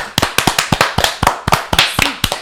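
Applause welcoming a guest songwriter comes as crisp, sharp hand claps in a quick, fairly even rhythm, loud and distinct rather than a dense crowd roar, with no talk.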